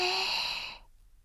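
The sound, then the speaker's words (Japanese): A single deep, breathy exhalation during a short rest break, taken as part of guided slow breathing. It starts fairly loud and rushing, then fades out to silence before the end. “大きく息を吸って、吐いて、吸って、”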